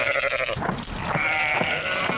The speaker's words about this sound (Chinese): 荒野之间，山羊成群结队，叫声悠长。